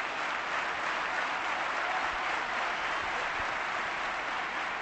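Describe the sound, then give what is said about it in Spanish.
A tennis crowd gives a sustained ovation at the Manolo Santana court in the Caja Mágica during a Nadal–Alcaraz match. The applause is a dense, steady wash of clapping that holds at an even level throughout, with no voices standing out. “Ovación de la Manolo Santana en esta caja mágica.”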